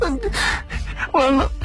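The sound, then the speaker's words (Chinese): A frightened man cries in fear, letting out a few gasping, wavering sobs and moans that rise and fall in pitch. “南宫一听这话可就慌了神，他竟然被吓得哭了出来。”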